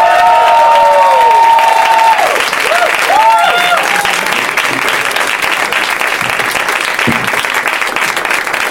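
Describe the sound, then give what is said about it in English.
Loud, sustained applause and cheering from a stage audience welcomes three guests, with a few whoops and voices over the clapping early on before the ovation carries on steadily. “Ladies and gentlemen, please help me in welcoming Lennon Parham, Jason Mantzoukas, and T.J.”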